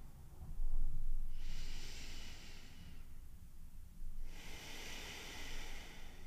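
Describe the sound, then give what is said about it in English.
Soft, airy breathing with a long, full exhale, heard as two drawn-out breathy hisses separated by a pause. Both are quiet and stand alone over faint background noise. “I breathe out fully and completely.”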